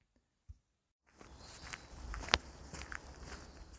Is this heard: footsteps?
yes